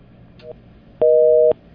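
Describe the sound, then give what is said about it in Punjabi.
Telephone busy tone after a dropped call: a faint short beep, then a louder, steady beep lasting about half a second, flat in pitch with a dual-tone quality. “ਤੁਹਾਡੀ ਕਾਲ drop ਹੋ ਗਈ ਹੈ ਜੀ, ਤੁਸੀਂ ਦੁਬਾਰਾ ਕਾਲ ਕਰ ਲਿਓ”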